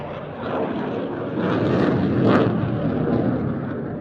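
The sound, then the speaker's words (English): Jet aircraft afterburner roaring as it pitches over during a looping display over a bay, a continuous broad rushing roar that swells slightly midway and stays loud, with no voices. “We'll just let you enjoy that noise of the afterburner.”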